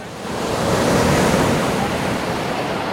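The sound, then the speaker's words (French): Rushing water from the 2004 tsunami as an aftershock wave floods neighbourhood streets in Sri Lanka: a loud, dense roar that swells during the first second, holds, then eases slightly. “Cette vague-là n'est qu'une réplique. C'est dire la violence du raz-de-marée. Image ici du Sri Lanka. L'eau monte dans les quartiers.”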